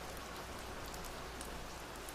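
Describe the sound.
Rain falls as a steady, faint, dense hiss with scattered drop patter. It is unbroken throughout, with no voices.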